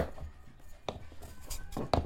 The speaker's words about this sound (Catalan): talleu, picau la ceba per un sofregit. Així ben bo. Una ceba blanca, si pot ser.